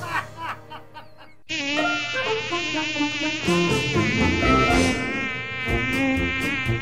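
Mosquitoes buzzing: a loud, steady, wavering high whine that cuts in abruptly after a quieter opening of about a second and a half, then drones on without pause, thickening with added tones partway through.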